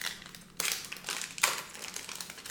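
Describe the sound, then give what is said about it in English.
A wax pack of trading cards is torn open: two faint, crackly bursts of wrapper tearing stand out from a soft rustling background. “we'll get you out these cards and give you some extra wax packs too as a thank you. All right, let's open this up.”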